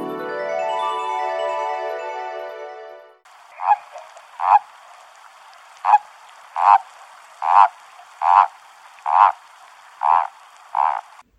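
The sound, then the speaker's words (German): A frog croaking nine times in an even rhythm, each a short raspy burst, after a sustained buzzy harmonic tone at the start. “Ein Frosch?”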